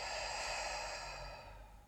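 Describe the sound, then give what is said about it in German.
A long, deep exhale after a briefly held breath flows out as a soft, steady airy rush that gradually thins and fades toward the end. “Nochmal zügig einatmen, kurz halten und dann lang und tief ausatmen.”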